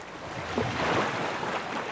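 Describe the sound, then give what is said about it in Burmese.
Ocean waves breaking on a beach: a single soft surge of wash swells and fades over a steady, wind-like background noise. “ကျွန်တော်တို့အခုရောက်နေတဲ့ဒီ Pandora ကမ်းခြေမှာကမ်းခြေပေါ်ကိုလာလာပြီးတော့ရိုက်နေတဲ့ခြေလှိုင်းတွေကိုကြည့်လိုက်ပါဦး။”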